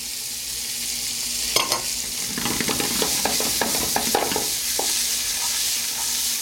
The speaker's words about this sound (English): The next ingredient I'd like to add is the celery and the onion.